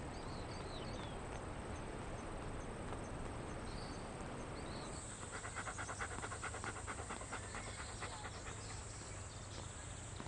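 A dog pants with quick, rhythmic breaths that repeat steadily and stay faint throughout.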